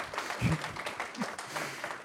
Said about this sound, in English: Just for the record, it is okay to clap.